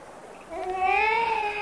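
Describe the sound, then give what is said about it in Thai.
A baby boy cries a single drawn-out wail that starts partway through. It is loud and tonal, and its pitch lifts slightly before it holds steady. “เด็กเริ่มร้องไห้เพราะไม่คุ้นเคยกับคนแปลกหน้า”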